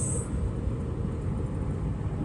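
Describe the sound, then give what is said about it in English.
Car driving slowly through a construction area, a continuous low road and engine rumble with no distinct separate events. “Sorry, I keep I'm driving, so I'm uh, trying to. There's like a bunch of construction and stuff going on, so kind of making sure I'm slowing down and watching for stuff.”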